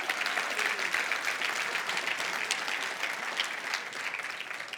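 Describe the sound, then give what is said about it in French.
Church audience applauding, a dense, sustained patter of many hands at a fairly even moderate level, easing slightly at the end. “Oui, vous êtes euh, euh, ceux qui croient que Jésus est vivant, on peut l'acclamer.”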